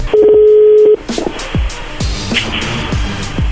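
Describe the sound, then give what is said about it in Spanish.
A landline telephone number is dialed: a steady dial tone first, then a run of short, evenly spaced keypad presses over faint line noise. “ya te cortaron. Márcale de nuevo.”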